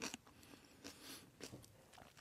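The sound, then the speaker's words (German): Faint crunching and chewing as someone bites into homemade kimchi taken with a fork. A few soft, moist crunches are spaced out across the moment, with no talking. “Wie ich gelesen habe, ist auch tatsächlich mein erster Kimchi, den ich jetzt ausprobiere. Und jetzt äh, gehe ich mal mit der Gabel äh, rein und probiere mal ein bisschen was.”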